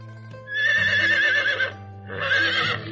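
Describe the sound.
Two loud, high whinnies from a horse pulling a cart, each a long quavering cry, the second shorter, with a low steady tone underneath.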